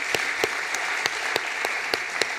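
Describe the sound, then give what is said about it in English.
An audience applauds during a sermon. A soft, steady wash of clapping is punctuated by sharp, evenly spaced claps that keep a regular rhythm throughout. “Yeah you can clap to that. That's good.”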